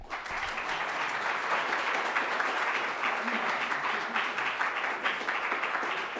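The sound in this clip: Audience applause welcomes a speaker to a lecture on early Latin Bible codices. The clapping is dense and steady, holding at an even level throughout.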